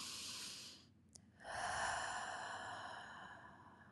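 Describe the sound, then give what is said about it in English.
A deep breath taken during a guided breathing moment: a soft, airy rush of breath that dips into a brief pause, then swells into a longer, steady breathy sound lasting a few seconds, with no talking. “So, my dear friend, take a breath with me.”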